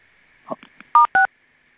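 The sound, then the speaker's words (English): Telephone keypad tones on a conference call line: a few faint, soft blips, then two short, loud, clear beeps in quick succession, over a faint steady line tone. “So, somebody keeps beeping on the phone. I'm not sure if you're trying to mute yourself, but it's you keep on beeping.”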